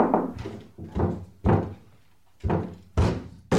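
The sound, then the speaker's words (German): A locked wardrobe door is forced open from inside: a few heavy, separate thumps and knocks, each a loud, hollow blow with short quieter gaps between. “Mit ein bisschen Kraft lässt sich der Schrank von innen aufdrücken.”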